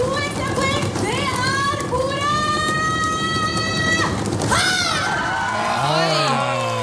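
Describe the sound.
Lively crowd atmosphere in a full hall, a loud, steady din of many voices with shouts and raised calls rising above it throughout.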